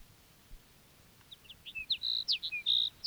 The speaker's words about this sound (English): Sage Sparrow number two.